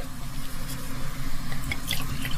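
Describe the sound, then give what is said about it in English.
Wine pours into a glass as a steady, soft liquid stream with a faint gurgle, continuing evenly for a couple of seconds with no talk. “No, wine would be nice. Yeah? Yeah. Well, great. Pour us a glass.”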